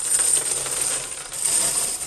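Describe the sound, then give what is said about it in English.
Silver half-dollar coins clinking together, a continuous bright metallic jingle and rattle of many coins, steady and fairly loud with no voices. “Coins are commonly found in safe deposit boxes, like these Benjamin Franklin half dollars.”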